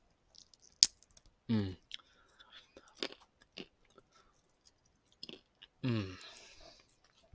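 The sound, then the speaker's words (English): Crunching and chewing of pistachios during an ASMR eating stream: a few faint, crisp cracks and soft mouth sounds spread across quiet pauses, with two brief louder wet bursts. “Today, I'm going to be eating some pistachios on stream.”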